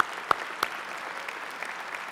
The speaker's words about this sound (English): We love you, moms. We give moms all a hand here this morning.